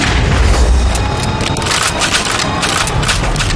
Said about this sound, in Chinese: 我他娘的还没说开枪呢就开枪了呢。